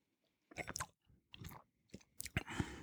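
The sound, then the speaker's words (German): Soft sipping and wet mouth sounds as a spirit is tasted, a few short, faint bursts of slurping and smacking separated by brief pauses. “Jetzt nehmen wir mal Schluck.”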